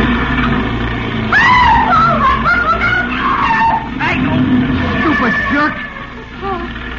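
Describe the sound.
Car tyres skid and squeal as a car swerves past a pedestrian stepping off the curb at a street corner by a drugstore. A loud, sustained squeal wavers in pitch over steady road noise, then eases off toward the end.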